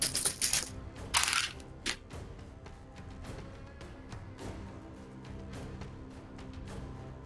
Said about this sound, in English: Oh, I gotta dump my dice box.